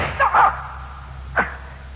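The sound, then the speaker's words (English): A gunshot sound effect in a radio drama: one short, sharp crack rising out of a quiet hissing background, preceded by a brief muffled burst. “I only shot you in the leg.”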